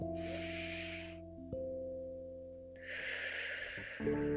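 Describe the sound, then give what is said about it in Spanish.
Two long, airy breaths during a guided meditation, each a soft hiss lasting about a second, over a steady, sustained musical drone. “exhalamos un tiempo.”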